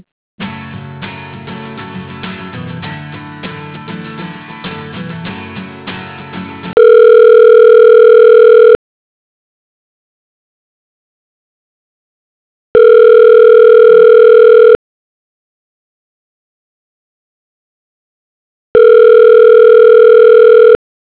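Telephone ringback tone as a call is transferred to voicemail: three loud, steady two-second rings separated by silent gaps, after an opening stretch of dense, busy tonal sound.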